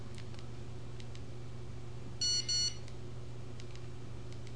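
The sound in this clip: Two short phone keypad key tones, high electronic beeps in quick succession, sounding alone over a faint steady hum.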